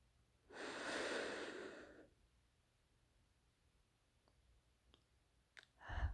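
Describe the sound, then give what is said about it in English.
One long, deep inhale during a guided breathing exercise: a faint, airy rush lasting about a second and a half, then near silence with a few soft clicks before another breath begins at the end. “Let's take another deep breath in together.”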